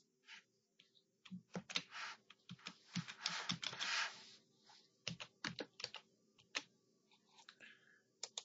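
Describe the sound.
Someone types a password on a computer keyboard while setting up access-control software. Many quiet, irregular key clicks come in quick clusters with short pauses between, including a brief flurry of rapid keystrokes.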